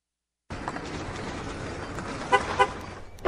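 An electric car's horn gives two short honks over a steady background hiss, the second following closely after the first.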